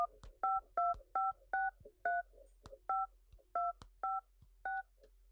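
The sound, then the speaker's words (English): Telephone keypad dialing tones as a long number is keyed in to reach a phone on a foreign provider: nine steady two-note beeps in an uneven rhythm, each marked by a sharp key click, with a few extra clicks between them. “so I have to dial an ungodly number of numbers to get into him.”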